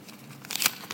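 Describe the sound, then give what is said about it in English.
Paper tearing and crinkling as an envelope found inside a gift is opened, a faint brief rustle that swells into a short crisp burst. “And there's an envelope in the gift. It's addressed to the world. Shall I have a look and see what's in the envelope?”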